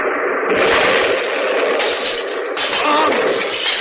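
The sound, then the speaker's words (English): A bomb explosion unfolds as a loud, dense, sustained roar of rumbling noise that churns on for several seconds without a single clean boom. “That was a bomb!”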